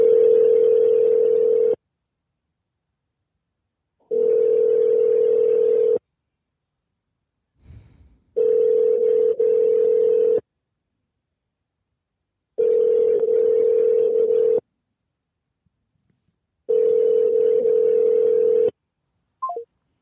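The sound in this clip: Ringing tone of an unanswered call to a sea rescue number: five steady, single-pitched tones, each about two seconds long and separated by silent gaps of similar length.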